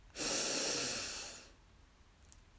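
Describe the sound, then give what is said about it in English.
A single deep breath, taken slowly and fully: a strong breathy hiss rises abruptly, sustains, then fades over about a second and a half, leaving near silence. “Breathe in and out.”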